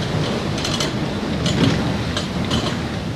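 Grain mill machinery runs in a working mill in western France, a loud, dense, continuous roar with rattling bursts that recur throughout. No voices are heard.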